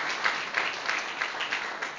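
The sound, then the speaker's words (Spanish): Audience applause for an 80-year-old singer: a dense, steady wash of clapping with evenly spaced swells that pulse through the whole stretch at moderate loudness. “démosle un aplauso a eso, son 80 años.”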